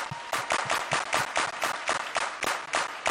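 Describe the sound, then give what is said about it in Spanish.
Hands clap in a church service: many sharp, distinct claps in a steady, fairly quick rhythm, each landing as a crisp slap that stays at a similar loudness the whole way through. “You cannot clap with hand. No puedes aplaudir con una mano. But when you let one hand, pero cuando coges una mano y encuentras la otra mano,”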